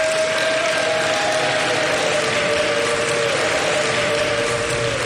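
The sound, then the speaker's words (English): An audience claps and cheers for prison employees at a prison ceremony. The noise is dense, steady and loud, holding without a break for about five seconds. “They cheered for prison employees, sometimes wildly.”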